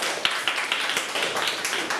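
A class claps for a student, their hands striking together in a brisk, regular group beat of sharp, overlapping claps at moderate volume.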